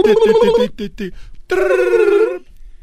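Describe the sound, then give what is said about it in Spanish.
A voice imitates a telephone ringing, a few short warbling bursts followed by a longer sustained trill, then silence. “Está haciendo la voz, el efecto del, teléfono.”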